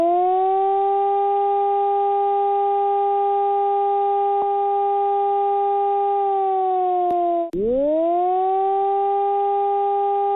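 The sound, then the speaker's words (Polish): Civil defense siren sounding an alarm during a civilian training exercise in Poland: a loud, steady wailing tone with rich overtones holds level for about seven seconds, dips sharply, then climbs back to full pitch. “na pewno usłyszymy syreny, które będą zapowiadać i odwoływać alarm. Ta pierwsza brzmi tak...”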